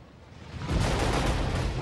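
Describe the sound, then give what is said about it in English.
A large explosion sends flames and smoke sky high near a plane during a refugee evacuation. After a quieter opening, a deep, loud roar bursts in and rumbles on steadily to the end. “Gene glances at the refugees, then at an explosion which sends flames and smoke sky high.”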